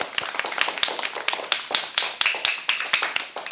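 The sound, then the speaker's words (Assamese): Hands clap loudly in a quick, fairly steady rhythm of many sharp, crisp claps at roughly four per second. The loudness stays even with no voices. “ডাঙৰকৈ হাত চাপৰি বজাই দিম।”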